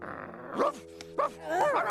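A dog barking at someone: a few sharp, mid-pitched yaps and a whining bark in quick succession over a steady low hum.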